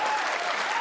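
A brief, dense burst of audience applause welcoming a performer, many hands clapping at a steady, loud level throughout.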